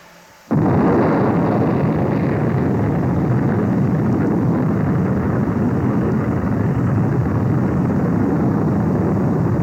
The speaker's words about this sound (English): The intermittent sounds of the guidance rockets. The separation of the second stage.